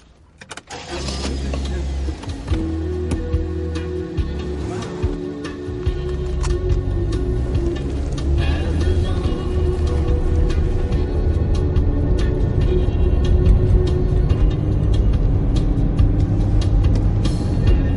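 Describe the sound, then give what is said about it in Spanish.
A car pulls away in a thriller film scene. After a quiet start and a few small mechanical clicks, the engine rumble builds and grows louder, then holds as a steady, low drone while the car drives off. “Mal se monta en el coche.”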